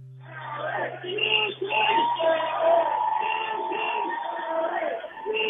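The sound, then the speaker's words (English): Protesters outside the Los Angeles Unified School District headquarters, where teacher layoffs are being decided, shout and chant. The voices are moderately loud, continuous and muffled. “The sound you're hearing is a scene outside the Los Angeles Unified School District headquarters.”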